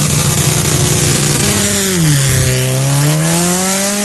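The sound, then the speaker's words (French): A car engine revs as it pulls away at a race start: a loud, sustained drone whose pitch sags briefly in the middle, then climbs again and holds high. “Il va partir, j'espère, ça va pas le ralentir. Mais non, Manix qui est voilà, met la main sur le boîtier de vitesse. La vitesse est enclenchée. Départ dans 5, 4...”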